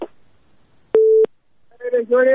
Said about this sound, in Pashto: اوریدونکی اړیکه راسره پرې شوه